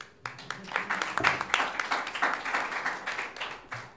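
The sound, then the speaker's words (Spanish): Audience applause at a talk on conscientious objection and military service in Paraguay: dense, steady clapping that fills the whole stretch without a break. “Un aplauso para Enrique.”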